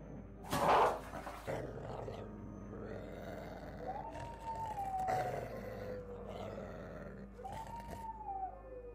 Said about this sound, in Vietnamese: Đám chó sủa vang lên inh ỏi.